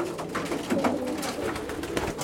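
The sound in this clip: Feral city pigeons coo in Berlin, with soft, throaty, repeated calls that run together over a steady background hum. No one speaks.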